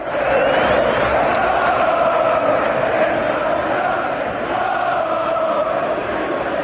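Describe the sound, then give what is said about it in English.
Manchester United away fans in Madrid singing a chant for Anthony Elanga, a loud, dense wall of massed voices sustained evenly from start to finish. “That is the sound of Manchester United's away support serenading our very own Anthony Elanga once more, this time in Madrid.”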